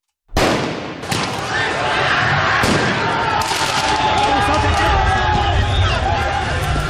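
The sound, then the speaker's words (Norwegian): A riotous football crowd in France, celebrating out of control after Paris Saint-Germain won the men's Champions League, makes a loud, sustained roar of noise, broken by a few sharp cracks like firecrackers. “Dette lyden av omfattende fotballbråk i Frankrike i går kveld og i natt. Etter at de franske mestrene Paris Saint-Germain vant mesterligaen i fotball for menn, kom feiringen ut av kontroll flere steder.”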